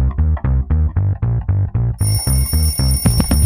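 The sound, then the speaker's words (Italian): An alarm clock rings on a hurried school morning: fast, evenly repeated pulses of a buzzing electronic tone, with a thin, high steady ringing joining partway through. “Questa sveglia, che disastro!”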